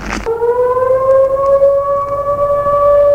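A jewelry store alarm siren goes off abruptly after a brief burst of noise, then holds a loud, sustained tone with strong overtones and a nearly constant pitch.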